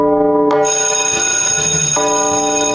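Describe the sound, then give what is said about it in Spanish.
A bell rings loudly and continuously, giving off a steady, sustained metallic tone with rich overtones from start to finish. “Ya tocó la campana.”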